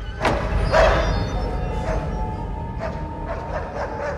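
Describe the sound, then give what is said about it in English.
Doors bang in a house: a few dull, loud thumps and knocks spread irregularly over a low, rumbling background. “The doors bang.”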